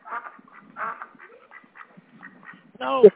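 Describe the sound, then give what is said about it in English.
A duck quacks loudly near the end, from ducks in a car, after quieter stretches of talk. “Get the ducks out of the car!”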